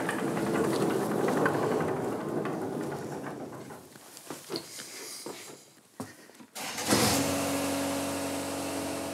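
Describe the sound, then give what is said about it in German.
Rough mower on a golf course, its engine giving a steady rumbling drone with irregular clicks and knocks; the noise dips, cuts out briefly, then returns louder and smoother. “Eine Rough-Mähmaschine.”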